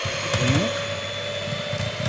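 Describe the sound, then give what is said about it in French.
An electric hand mixer whips cream on its first, lowest speed, giving a steady, even motor whir with a constant tone throughout and a brief voice over it early on. “soit au batteur à main ou au batteur électrique, mais préférable faire un batteur électrique, ça va beaucoup plus vite. Première vitesse.”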